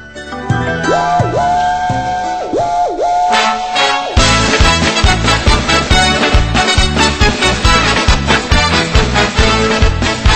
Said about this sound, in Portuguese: Já que tinha dito, para andar no comboio tinha que dar ao apito.